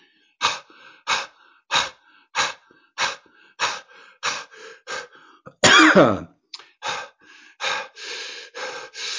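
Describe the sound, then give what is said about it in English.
Deep, forceful breaths in a breathing exercise demonstration: a steady, rhythmic run of many short, breathy bursts, with one longer and harsher burst partway through. “So as the quick demo, deep full breath.”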